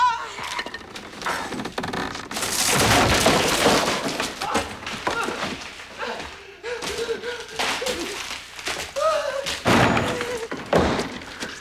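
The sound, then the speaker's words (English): A cupboard falls over with a crash: loud thuds, cracking and splintering breaks in a few heavy bursts, separated by quieter knocks and rattles. “The cupboard falls over Lars, crushing his hands. His head breaks through the top.”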